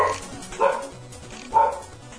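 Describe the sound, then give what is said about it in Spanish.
Dogs barking, two sharp, loud barks spaced about a second apart over a quiet background, with no talk. “Es tan chido el programa que los perros no se callan. Sí. El perro está bien emocionado con el programa.”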